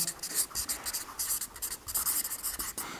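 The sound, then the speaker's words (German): Handwriting with a pen on paper, jotting down notes: soft, scratchy strokes in short irregular bursts, faint and continuous with brief pauses between words. “ich weiß vielleicht nochmal hier, schreibe mal hier Aussagen anderer.”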